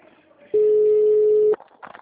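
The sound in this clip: A telephone busy signal after a dropped call: one loud, steady, mid-pitched tone lasting about a second, with faint voice sounds before and after it.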